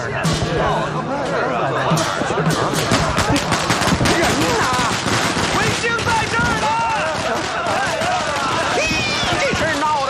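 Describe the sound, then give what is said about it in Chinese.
A long string of firecrackers is set off at a celebration, giving a dense, rapid crackle of many sharp bangs without pause. Excited voices shout over the noise. “放鞭炮，放鞭炮！”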